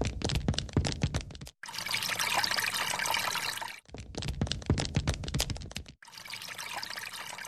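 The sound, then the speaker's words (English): Tap water runs while someone washes their face, loud and continuous, alternating between splashy stretches of hands in the stream and a smoother steady flow, broken by three brief pauses. “Have you washed your face yet? No, I haven't. I'm washing it now.”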